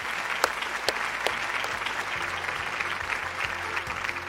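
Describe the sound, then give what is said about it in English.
Audience applause thanking a debate panel in a theatre at a countryside show: dense, steady clapping that holds evenly throughout, with a few sharper individual claps standing out early and a low hum beneath. “And please put your hands together to thank the panel.”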